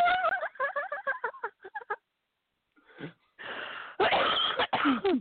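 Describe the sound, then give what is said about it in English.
Wheezing and coughing during a laughing fit: a run of rapid, high, squeaky wheezing bursts, a short pause, then rougher snorting breaths and loud raspy coughs. “We got the snort. We got the cough. I'm dying. We got the wheeze.”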